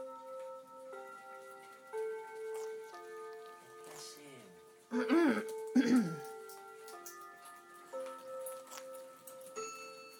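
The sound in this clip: A clock sounds a run of sustained, ringing tones that step up and down in pitch, fairly faint, while people talk over it.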